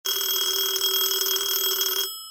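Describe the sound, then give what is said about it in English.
A telephone bell rings in a single sustained electric burst of about two seconds, loud and bright, then cuts off abruptly with a brief fading tail. “the phone rings at 4 a.m., a little bit earlier than Mr. Jordan was accustomed waking up.”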